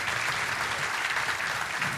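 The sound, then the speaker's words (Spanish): An audience gives a round of applause for a guest, producing thick, continuous clapping from many hands that stays loud and even throughout, with no voices standing out. “Can you guys give him a round of applause for being here”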